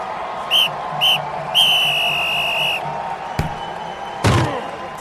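Referee whistle signalling an opening kickoff: two short shrill blasts and then one long held blast, followed by two sharp thuds over a steady noisy background.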